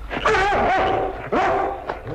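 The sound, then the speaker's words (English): A dog urged to attack a man barks and yelps loudly in a few strong, tonal bursts, with a smaller cry near the end and no speech over it. “Get this dog away from me.”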